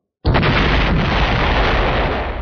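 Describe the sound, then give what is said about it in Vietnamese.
A huge explosion from a thunder orb of magic striking a barrier: a sudden, very loud blast that swells at once into a dense, sustained roaring rumble and holds almost undiminished to the end. “Một tiếng nổ mạnh kinh thiên động địa truyền đến, nội địa sơn mạch trong vòng ngàn dặm đều chấn động”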